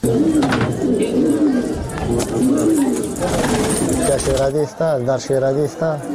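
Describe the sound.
Pigeons coo at a pigeon keeper's place in Kunduz, where one keeper may hold 500 to 2,000 birds. Many loud, rolling coos repeat throughout, overlapping one another, with voices mixed in.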